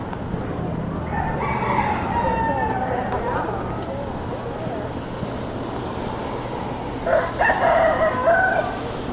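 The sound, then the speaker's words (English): Rooster crowing among a large flock of chickens, with two drawn-out crowing bursts, one early and one near the end, over a steady noisy rumble and voices. “They sure have a lot of chickens.”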